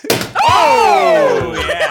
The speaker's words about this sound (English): That literally was a mistake. I didn't mean to do that. But it's his first time opening a bottle of champagne.